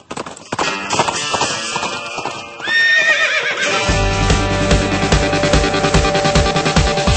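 A horse whinnies over quick clip-clop galloping hoofbeats, and then a music beat with deep, heavy bass comes in and carries on under the hooves.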